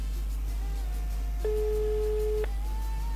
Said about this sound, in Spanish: Es la cuarta persona que estoy llamando.